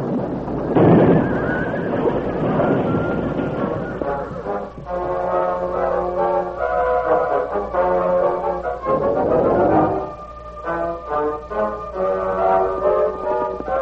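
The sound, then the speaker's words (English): A horse-drawn wagon rumbles onto a wooden structure with a loud burst at the start. Heavy rumbling and clattering follows, swelling and easing over about fourteen seconds, with sustained tonal strains running through it. “realizing the wagon couldn't be stopped in time, threw down the reins and jumped. A moment later, the wagon rumbled onto the wooden structure.”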